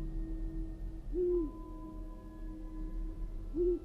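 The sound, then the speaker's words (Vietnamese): Two brief, low owl hoots in a forest of the Central Highlands, faint and spaced a couple of seconds apart over quiet background. “một con cú mèo ở trong rừng vỗ cánh phành phạch, thẳng thốt bay lên rồi rúc lên mấy tiếng”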